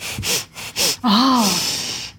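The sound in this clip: A person doing a breathing exercise takes a few quick, sharp breaths in, then one longer breath with a voiced, wavering tone that gradually fades.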